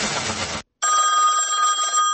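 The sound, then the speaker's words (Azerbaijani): A telephone rings with a sustained electronic tone. A short burst of broad noise comes first, then a moment of silence, and then a steady, bright ringing with a buzzy edge. “Telefon zəngi ilə biz efirimizi açıq elan etdik.”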